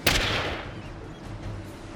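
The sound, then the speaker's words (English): A single revolver gunshot effect from a Scottfield, fired into a tentacle during a tabletop role-playing game set in a Louisiana bayou: one sharp blast at the very start, then a long rumbling decay. “she just puts another bullet from a Scottfield into the tentacle beside her”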